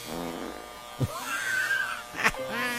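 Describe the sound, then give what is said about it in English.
An electric beard trimmer cutting a beard hums with a steady buzzing drone, its tone wavering slightly, broken by two brief clicks or bumps. “Somebody getting a shave? I'm gonna trim my beard while you're like, finding this thing.”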